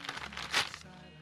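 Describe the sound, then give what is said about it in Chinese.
A package being torn open along its tear strip, a short crinkly rustle with one louder ripping burst in the middle before it fades out. “怎么打开呢？哦，原始线撕开。”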